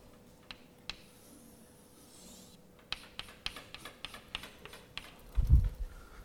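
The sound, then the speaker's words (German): Drawing on a board during a chemistry lesson on bonding orbitals: faint, sharp taps and scratches at irregular intervals, busier in the second half, ending with a louder low knock. “Ich muss es jetzt ein bisschen hier zeichnen.”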